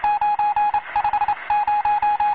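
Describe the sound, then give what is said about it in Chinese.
A telephone being dialed to connect a wartime army division commander's call to headquarters: a quick series of many short, evenly pitched electronic beeps in clipped groups with brief gaps, loud and alone. “师座，通了。 我是145师师长饶国华，请唐长官接电话。”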